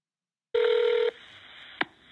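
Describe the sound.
A telephone tone sounds as a 911 emergency call is dialed: one steady beep about half a second long, then a faint lingering hum and a single sharp click.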